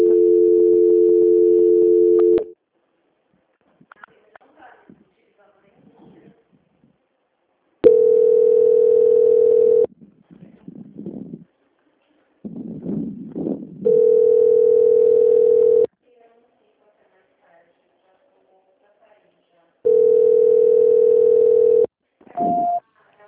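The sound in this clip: Steady telephone tones sound during a call transfer: four long, flat, buzzing beeps of about two seconds each, separated by pauses with faint scattered noises, and a short higher blip at the end.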